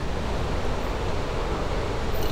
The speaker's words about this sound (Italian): In effetti questo è generato dallo scrosciare dell'acqua, per cui non è un rumore di una ventola